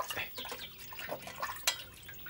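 Running water during hand washing: faint, irregular trickling and small splashes with scattered drips, and one slightly sharper splash near the end.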